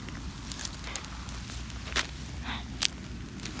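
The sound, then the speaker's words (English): Soft, quiet footsteps of someone creeping toward ducks, with faint irregular steps and a couple of sharper crunching taps standing out against a low, steady background. “Then just walk like this.”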